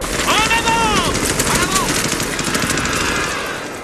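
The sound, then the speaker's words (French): Machine-gun fire on a World War I battlefield at Verdun in December 1916, loud rapid bursts forming a dense rattling stream with sharp crackling transients, easing slightly toward the end. “À cause de leurs nouvelles armes, c'est presque impossible de passer le No Man's Land, car de l'autre côté, ils ont leurs mitrailleuses.”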